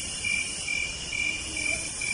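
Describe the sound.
A large flock of starlings calls together in a dense, shrill, continuous chattering that sounds almost like crickets. The chorus holds steady throughout, with no voices.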